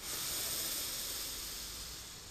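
A slow inhale through the nose during a guided relaxation exercise, heard as a steady, airy hiss that holds for about two seconds and tapers slightly, with no talk.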